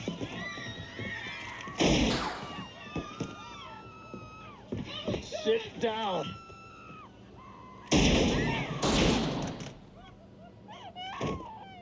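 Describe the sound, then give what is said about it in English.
Gunshots from the 1973 film Magnum Force: a loud gunshot burst early on, then a longer cluster of blasts later, with talking voices in between. “Now, what's interesting about that is he shot that guy with the other guy's gun.”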